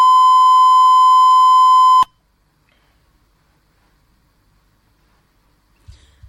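A telephone line drops with a disconnect beep: one steady, loud, mid-high electronic tone holds for about two seconds, then cuts off abruptly into near silence, with only a soft low rustle at the very end.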